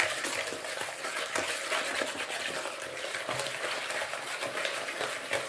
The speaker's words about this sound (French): Donc je mélange le yaourt avec le sucre. Énergiquement, comme vous pouvez l'entendre.